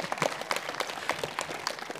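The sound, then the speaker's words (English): Brief applause from an audience at the start of a presentation. A modest, fairly quiet patter of clapping holds steady over a couple of seconds. “Maybe I should have written in pause for applause, but I didn't write that in there. But it's nice.”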